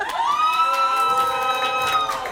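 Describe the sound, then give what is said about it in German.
Audience members at a competition shout a long, drawn-out "hoi" together, a loud sustained call that swells in at the start and tails off at the end. “Also wie viele Leute haben denn so jemand da bei der, in dem Publikum von euch? Rufen mal hoi.”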